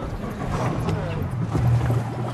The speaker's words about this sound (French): Voilà le bateau, on va embarquer.